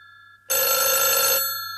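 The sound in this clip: A telephone rings at night. A loud, continuous electric ring starts abruptly after a brief low hum and holds steadily, fading only slightly toward the end, with no voices.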